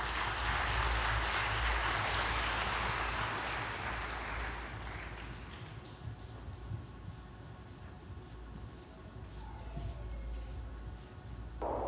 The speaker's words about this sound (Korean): 따뜻한 박수로 맞이해 주시기 바랍니다.